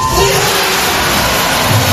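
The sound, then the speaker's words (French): Loud crowd screaming and cheering at the Olympic aquatic centre for swimmer Léon Marchand during a relay race, a continuous dense roar of many voices that stays at full strength throughout. “Au centre aquatique olympique, c'est lui la star. Le public hurle le prénom de Léon Marchand et quand il conclut en tête le premier relais, c'est l'hystérie.”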